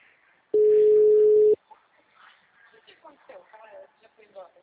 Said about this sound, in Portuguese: Peraí que eu tô tentando ligar pra ela aqui pelo WhatsApp dela.